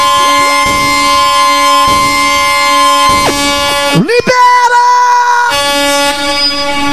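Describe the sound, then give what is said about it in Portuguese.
An air horn sound effect honks through a live DJ set: loud, sustained, buzzy harmonic blasts fill the stretch with brief breaks, and midway a tone swoops sharply upward before the steady blaring resumes. “Pera que eu trouxe a buzinada. A buzinada.”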